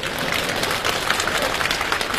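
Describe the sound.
Steady audience applause at a comedy stage show fills the whole clip as a dense, even patter of many hands clapping, with no pause or break.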